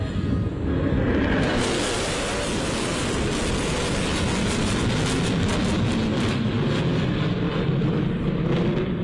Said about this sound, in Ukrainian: Такі можуть розганятися до 1500 кілометрів на годину і є ключовим елементом ядерної тріади США.